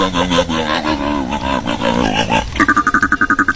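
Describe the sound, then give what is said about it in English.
A sea lion calls with deep, harmonic, grunting bellows, then breaks into a rapid, rhythmic run of short, loud barks. “Monday's winner, Shelby, knew that this is the sound of a sea lion.”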